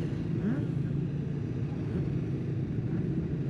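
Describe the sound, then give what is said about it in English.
Idling engines of 600cc supersport racing motorcycles gathered in a holding area before a race, a steady, low, droning rumble at moderate level with no talk. “Welcome back down to the holding area. Quite loud, as you can hear in the background. We have got the guys from the next race out, which is the 600B race, the JCK Supersport B race.”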